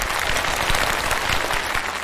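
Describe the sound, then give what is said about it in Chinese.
Dense applause from a theatre audience for the cast of a stage play. The clapping is steady and loud, with many hands throughout and no pause. “首先我要给你们这个掌声给你们。”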